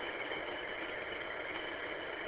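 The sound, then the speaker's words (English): A small tractor engine runs while fixing up a driveway. It makes a continuous, even, mid-pitched mechanical drone with no breaks or change in tone. “Try to fix up the driveway a little bit, I guess. My little tractor on behind, and here we go.”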